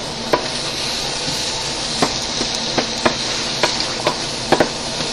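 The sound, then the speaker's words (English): Food sizzling in a pan on a stove, with liquid still in the pan as it finishes cooking; a steady, bright hiss runs throughout, broken by many sharp clicks and taps, with no voices. “And I could probably turn my stove off because they're just about cooked. Well, there's still liquid.”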